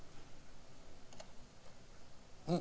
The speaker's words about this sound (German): Jetzt habe ich die Tabulator, das du benutzt. Aber nicht, um jetzt damit einen Abstand zu erzeugen, sondern um in das nächste Feld meiner Tabelle zu springen.